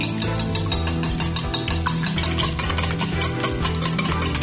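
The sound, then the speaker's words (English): Eggs and yolks are beaten with vanilla extract and a pinch of salt, a rapid, steady rhythm of wet clicking and scraping at even loudness, with no voices. “To the eggs, we're going to add 1 teaspoon of pure vanilla extract and just a tad pinch of salt. Now let's beat this up.”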